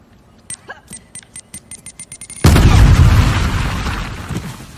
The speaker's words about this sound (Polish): To jak się używa granata, słuchajcie? Przytrzymaj R1, aby wycelować granatem.